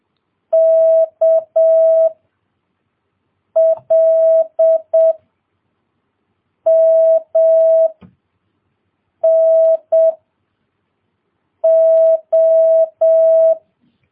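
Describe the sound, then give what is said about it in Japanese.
Morse code letters K, L, M, N and O sent as a steady mid-pitched tone in five separated groups of long and short beeps, crisp and alone with no talk. “ツーツーが M で、ツーツーツーと3つ来たら O です。はい。それでは、K、L、M、N、O と順番に打ちますから、取っていってください。”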